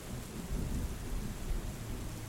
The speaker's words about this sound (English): Your clothes are soaked through, but you embrace the rain, feeling every droplet,